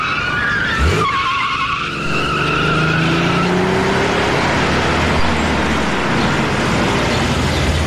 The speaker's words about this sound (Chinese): 即刻在路中间急速掉了头，往回追去。